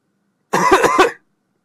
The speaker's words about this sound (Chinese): 皮二混咳嗽了两声，门开了。